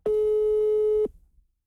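A single steady telephone tone holds for about a second at one even pitch while a call waits to be answered, then cuts off into silence.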